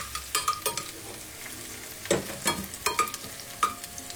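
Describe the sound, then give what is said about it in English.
Garlic fries in a pan with a steady soft sizzle and fizz, broken by many irregular scraping strokes as it is stirred. No one speaks. “Yeah, you see that's sort of fizzling up now a wee bit. And just warm it up. Yeah, just, I want to cook that just until it's nice and it takes the edge off, you know.”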